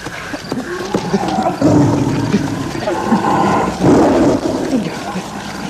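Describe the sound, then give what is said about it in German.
A tiger roars in deep, rumbling surges that swell loudly twice over a constant noisy background, each roar rising and then fading back. “Der Tiger gab auf. Jedenfalls war nach einiger Zeit nicht mehr zu hören.”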